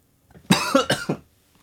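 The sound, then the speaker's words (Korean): Sudden coughing from a person: a few harsh, rough bursts in quick succession, loud and alone, then quiet. “아, 갑자기 기침이.”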